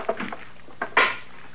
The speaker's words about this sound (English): Well, that stick of wood, of course. You're gonna wreck it banging it on the stove that way.